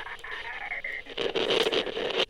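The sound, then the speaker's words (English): Harsh burst of crackling radio static surges loudly for about a second after a steadier tonal hiss, then cuts off abruptly. “Another burst of static shut the argument up.”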